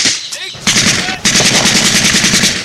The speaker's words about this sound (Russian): Убивает одного из немцев. Убегает, второй немец стреляет ему вслед.